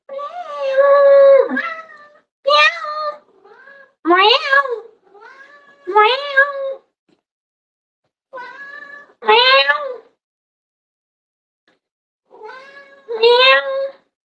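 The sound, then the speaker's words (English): A house cat meows repeatedly, giving a series of loud, drawn-out, tonal cries separated by short silences, some calls rising and wavering in pitch. “Don't you hear that? That's my cat who runs fast.”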